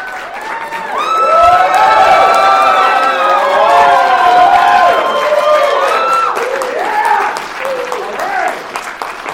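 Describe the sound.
An audience at the Alexa conference in Chattanooga cheers and applauds, with whoops and shouts rising over sustained clapping that stays loud and full throughout before tapering slightly at the end.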